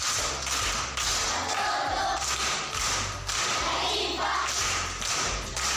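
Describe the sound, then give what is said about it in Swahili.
An audience at a primary school applauds a pupil with rhythmic, patterned group clapping, steady and fairly loud, mixed with dull thumping beats throughout. “Makofi kwa mjomba.”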